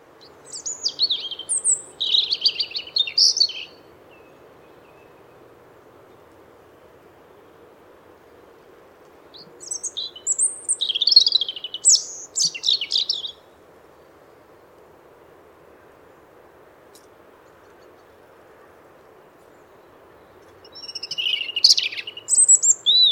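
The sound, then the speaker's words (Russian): A European robin sings three separate bursts of high, thin, twittering song, each about three seconds long, with long pauses between them over a faint low hum. “Зарянка.”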